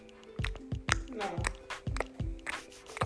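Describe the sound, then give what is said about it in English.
A baby makes wet chomping and chewing sounds, a string of many rhythmic smacks and squelches repeating at a quick, even pace. “That sound like that chomp chomp you be putting on.”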